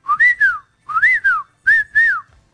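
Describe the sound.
Whistled Silbo Gomero phrase asking someone to bring bread: three bursts of high, gliding whistled notes that rise and fall like speech, separated by brief pauses, with no voices.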